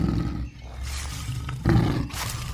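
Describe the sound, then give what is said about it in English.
A lion roars in a few rough, deep, rolling bursts that swell and fade, loud and alone with no voices. “You're a lion?”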